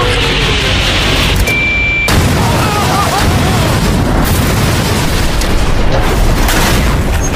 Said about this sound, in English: It might not have flown 100 feet, but at least we blew it up. But that explosion is literally nothing compared to what you're about to see.